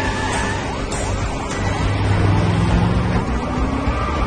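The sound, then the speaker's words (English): Car tearing off at speed during a police chase: a loud, steady engine roar whose tones rise as it accelerates. “Car gets close to him, he tears off, faster.”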